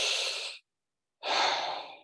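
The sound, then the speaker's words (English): Labored breathing through the mouth: two breaths, each a soft, airy rush lasting under a second, separated by a brief silence. “if you just for a second breathe in through your mouth, take a breath in.”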